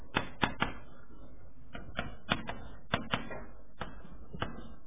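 Typing a web address on a computer keyboard: many quiet, crisp key clicks in uneven bursts, some keys struck in quick pairs.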